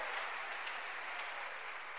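Applause from a church audience during a worship service: steady, dense clapping that holds at an even level throughout, with no voices standing out above it.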